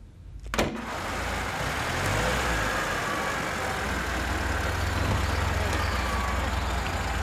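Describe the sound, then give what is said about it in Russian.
Car driving into a yard, a steady low engine rumble with road noise that holds evenly throughout at a fairly quiet level, after a brief sharp knock near the start. “Едет на машине во дворе. Подъехала к дому.”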